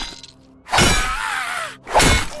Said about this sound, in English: Doyle raised the fire poker and smashed it down into Mary Ellen repeatedly.